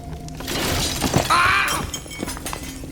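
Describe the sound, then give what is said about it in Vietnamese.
Crashing shatter of a tall stack of pots toppling in a strong gust and falling at a pottery kiln: a dense burst of breaking and clattering fragments, with a bright ringing sweep in the middle before it tails off. “Đột nhiên một trận gió lớn thổi đến, chồng chậu trên cao nghiêng ngả rồi rơi xuống đè lên chân Hai Công.”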